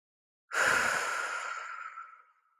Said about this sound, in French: une profonde inspiration par le nez pour te dynamiser. Et souffle fortement par la bouche pour diffuser cette énergie dans ton corps.